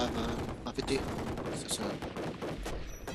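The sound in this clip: Bursts of gunfire from a SIG 550 rifle in a movie scene, a dense run of sharp shots over a dense, noisy soundtrack.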